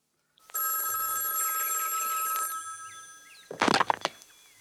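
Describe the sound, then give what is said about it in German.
An old telephone bell rings in an apartment with one steady, shrill burst lasting about two seconds, then a short clattering knock after it stops. “Am 11. März klingelte bei Condon das Telefon.”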